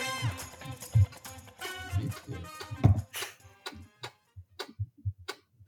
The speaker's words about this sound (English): It's a Lenovo laptop, which I never heard of, but I got good reviews, so I was like, okay, cool. And now 2 months in, and like, just listen to this.